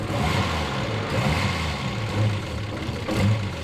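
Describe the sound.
An old car's engine runs with noise from a worn starter motor bearing, a steady low rumble and mid-range hum with a few brief swells in loudness and no voices.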